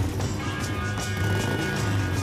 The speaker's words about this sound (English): A 40-something guy revs his gleaming Harley and speeds out of the garage of a large white home in leafy suburbia.